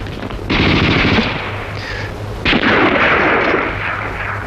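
Loud machine-gun fire in two sustained rattling bursts, the second starting about halfway through, with no voices.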